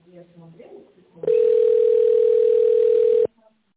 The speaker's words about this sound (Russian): Your call is very important for us. Please hold the line and wait for the answer.